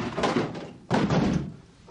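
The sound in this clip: A heavy thump against a locked door: one dull impact rising out of a rough, noisy background, then dying away over about a second.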